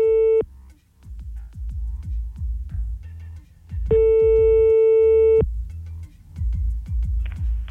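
A telephone busy signal after redialing: two steady mid-pitched tone bursts, a brief one at the start and a longer one midway, over a loud, low, rhythmic throbbing pulse that runs throughout.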